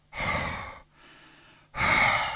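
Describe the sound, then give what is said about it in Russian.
Heavy breathing performed by a reader as two story animals breathing together to warm a burrow: two loud, airy breaths with a softer, quieter breath between them, and no words spoken. “Ежик с медвежонком легли голова к голове и стали дышать.”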